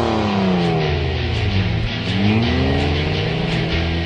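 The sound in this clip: A gasoline car engine roars loudly as it accelerates, a continuous dense rumble with a whining harmonic tone that shifts in pitch throughout.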